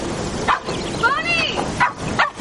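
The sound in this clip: A female poodle yips and whines as she climbs into a van in the countryside: a few short, sharp yips and a wavering, rising-and-falling whine, with rustling movement throughout.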